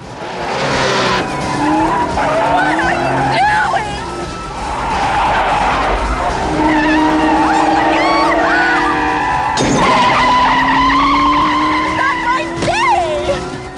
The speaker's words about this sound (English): The two cars cut through traffic and weave along the nighttime road.